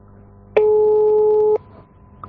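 A telephone call tone sounds as a call is placed: one steady, loud electronic beep held for about a second, alone, followed by a brief faint blip.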